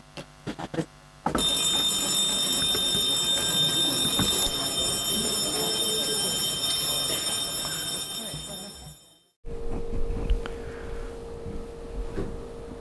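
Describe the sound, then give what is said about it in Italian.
An electric bell rings in a city council chamber to mark the close of a session segment, a loud steady metallic ringing that runs for about eight seconds before cutting off abruptly. “E allora con la campanella che di fatto dà il via, anzi la chiusura di articolo 54”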